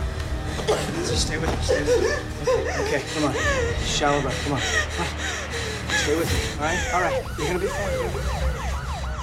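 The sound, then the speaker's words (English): An injured woman with cuts on her face, covered in grey powder, gasps and struggles to breathe while being lowered to the floor. Her ragged, strained breaths repeat throughout, among other voices. “She struggles to breathe as Strom lowers her to the floor.”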